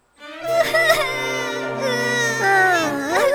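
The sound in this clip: A human voice imitates a crying baby in a single sustained, wavering wail that bends up and down in pitch. It is fairly loud and heard alone.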